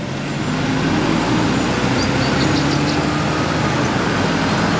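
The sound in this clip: Car engine as a car drives off, a loud steady low rumble with broad road noise and a faint tonal hum. No voices are heard.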